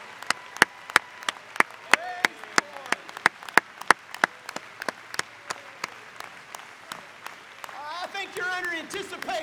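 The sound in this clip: A church audience clapping in praise of the Lord, with many steady, evenly spaced claps keeping a brisk rhythm; a voice rises over the clapping near the end.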